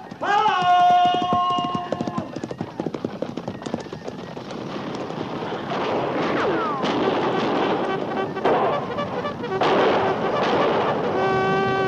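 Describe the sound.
Galloping horses as a cavalry line charges out of the foothills toward Cheyenne riders, a dense drumming of hooves mixed with sharp, loud cracks of gunfire throughout.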